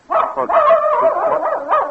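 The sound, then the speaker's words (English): A female dog gives a loud, drawn-out whining bark lasting about two seconds, heard alone, its pitch wavering. “there you are, Queenie. I wondered what had happened to you. Been following me around all night. Miss Benton's dog.”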